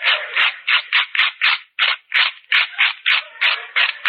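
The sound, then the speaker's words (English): Rapid, repeated scraping of a knife across burnt, charcoal-like toast: many short, harsh rasping strokes in a fairly steady rhythm, loud and dry, with a brief pause near the middle. “Look how burnt the toast is. It's like charcoal. Give me a knife. I'll scrape it.”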